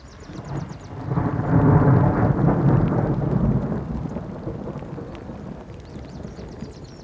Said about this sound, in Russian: Но однажды налетел сильный ураган, гремел гром,